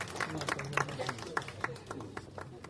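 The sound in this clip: Scattered clapping from an audience at a ceremony honouring district councillors, a run of separate, fairly quiet claps mixed with voices.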